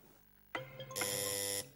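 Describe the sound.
Quiz game buzzer in a word-puzzle game: a sharp click, then a loud, steady, harmonic buzz that holds for over half a second before cutting off abruptly.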